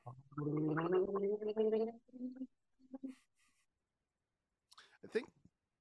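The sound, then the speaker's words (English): A person gargles, a couple of bubbling, throaty bursts followed by near silence, then a short burst of voice at the end. “I think you overpower your microphone with that gargling, because you hear a couple of guggles and then it's silent.”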